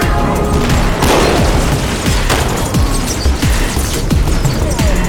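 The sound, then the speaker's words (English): Rapid gunfire in a video game, many loud, sharp shots in dense bursts that overlap with booming impacts and keep going without pause. “They shoot a lot of bullets.”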